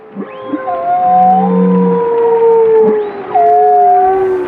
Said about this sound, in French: Les animaux marins se basent donc beaucoup sur leur ouïe pour communiquer, comme cette baleine à bosse au petit matin.